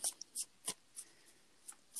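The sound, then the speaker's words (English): A playing card slips out of a deck during shuffling, heard as a faint series of short, crisp ticks and flicks spaced irregularly, with quiet gaps between them. “And also, ooh, I got a card. Ooh, I heard it slip.”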